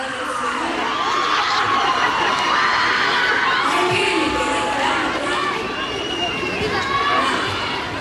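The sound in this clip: Festival crowd ambience at the Expo Mimbre in Chimbarongo during a live stage show: a dense, steady roar of many voices with scattered shouts, whoops and cheers, including children's voices, holding loud throughout.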